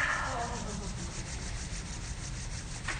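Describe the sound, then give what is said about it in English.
Hands rub briskly together to make heat, giving a steady, dry, scratchy friction sound that runs evenly for about three seconds. “Rub your hands, make some heat.”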